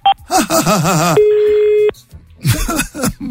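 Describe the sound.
A telephone being dialed: a short beep at the start, then a steady electronic tone lasting under a second. Voices talk before and after it.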